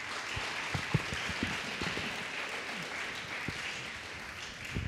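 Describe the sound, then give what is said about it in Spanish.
Congregation clapping in a church service in praise to the Lord, a soft but dense, continuous spread of many hands, steady from start to finish with a few low thumps scattered through it. “¿Cuántos dicen gloria a Cristo Jesús? Denle un fuerte aplauso al Señor.”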